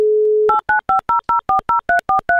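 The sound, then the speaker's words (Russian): A telephone dial tone sounds as a steady hum while a contestant is called on a prize quiz. It then gives way to a rapid, evenly spaced run of loud two-note touch-tone dialing beeps. “я прямо сейчас открываю линию, звоню тебе и надеюсь, ты возьмешь трубку.”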